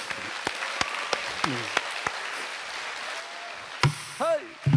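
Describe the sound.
Scattered hand claps from an audience at a Korean narrative singing performance, a few sharp separate claps rather than a full ovation, with voices calling out between them.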